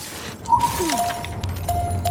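A glass bottle smashes in a video game, a brief crash with a scatter of tinkling fragments early on, set against steady low in-game ambience.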